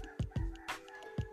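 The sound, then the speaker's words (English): A rooster crows faintly as a thin, sustained call, with a few low thumps around it. “You might hear the rooster crowing.”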